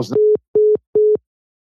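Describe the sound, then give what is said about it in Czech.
Telephone line tone while calling back a caller whose connection dropped: three short, evenly spaced, steady mid-pitched beeps in a regular rhythm, preceded by a brief burst of noise at the start. “pan profesor nám vypadl, já to tady hned mu zavolám ještě jednou.”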